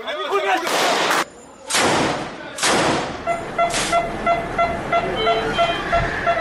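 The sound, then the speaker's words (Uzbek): Gunfire during fighting in Gaza between Israeli soldiers and Palestinian militants: several loud, harsh bursts in the first few seconds, then sharper, shorter cracks over a steady tonal hum. “Videoda isroillik askarlarning G'azoda falastinlik jangarilar bilan otishmasi aks etgan.”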